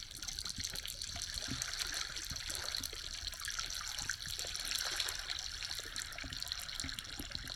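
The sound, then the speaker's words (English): Bubbles escape from melting glacier ice, recorded underwater: many tiny irregular crackles, pops and fizzes form a dense, faint, continuous sizzle. “This is the sound of bubbles escaping from a melting glacier.”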